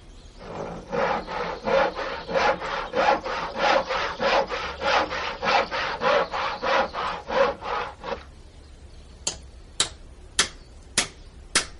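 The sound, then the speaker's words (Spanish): Rasping strokes of a hand saw cutting through firewood, many steady back-and-forth pulls in an even rhythm, followed by a few sharp, bright taps once the sawing stops. “ponga la leña ahí, eh, en puños. Eh, alcánceme el serrucho. Tome.”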